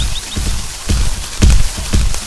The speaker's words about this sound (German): Ihr könnt aber schön stampfen.